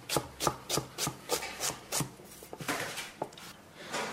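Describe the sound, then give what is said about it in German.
A knife chopping half a dozen peeled white asparagus spears into centimetre-sized pieces on a work board, a steady series of many crisp, evenly spaced taps, alone without voices. “Ein halbes Dutzend porzellanweiße, fein säuberlich geschälte Spargelstangen. Dann schneidet man es einfach kleine, so Zentimeter große Stücke.”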